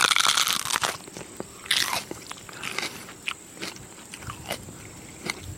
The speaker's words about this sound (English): That's the sound of a fresh pepper right out the garden. And it's so good.